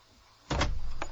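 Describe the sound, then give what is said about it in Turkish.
A door lock is turned: a firm mechanical clunk is followed moments later by a shorter click. Both are fairly quiet and come alone against a soft background. “Baksana kapıyı kaç kere kilitledi.”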